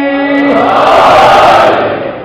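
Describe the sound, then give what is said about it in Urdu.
A crowd answers a Naara-e-Haidari chant call at a religious gathering. A single sustained chanted voice gives way to a loud massed shout that swells, then tapers off after about two seconds. “ایک بار پھر مولا امیر مومنین کے نام پر نعرہ حیدری”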